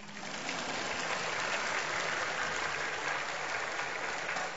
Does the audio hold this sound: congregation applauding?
yes